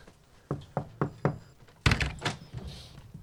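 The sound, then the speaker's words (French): Four evenly spaced knocks land on a door, followed by a louder cluster of heavier thuds and rattling knocks before the sound dies away. “Est-ce qu'il y a une cloche? Non, mais on va frapper.”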